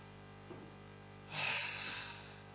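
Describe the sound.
One deep breath in is drawn during a Christmas morning gathering. It is a soft, breathy hiss that swells for about half a second and then trails off, faint against a quiet background.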